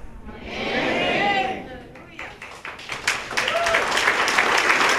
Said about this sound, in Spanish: Aplauso para el Papa Benedicto XVI.